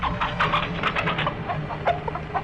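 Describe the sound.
Chickens clucking in alarm: a dense flurry of many short, overlapping clucks and squawks that runs the whole way through, fairly loud and busy.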